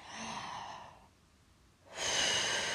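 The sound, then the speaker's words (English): Deep breathing in and out, with one long, loud breath, a short quiet pause, then a second strong breath. No one speaks. “Take a nice deep breath in. And then breathe out. Like that, darling. Do it again for me. Breathe in.”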